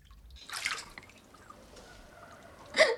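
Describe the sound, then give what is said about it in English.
Water splashes and trickles as handfuls are scooped and tipped in a big metal bathtub: a soft splash, quiet dripping and trickling, then a sharper splash at the end. The sounds are faint and there are no voices. “They scoop up handfuls of water and tip them down her back.”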